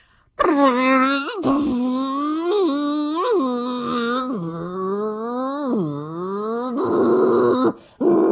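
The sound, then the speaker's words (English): A person vocally imitates a Porsche racing V10 engine derived from Formula One, holding a buzzy, nasal tone for about eight seconds whose pitch repeatedly climbs like rising revs, dips, and climbs again before stopping abruptly. “It has a Formula One-derived racing V10 engine, and this is what it sounds like. Okay, this is the something or other V10 race. Porsche.”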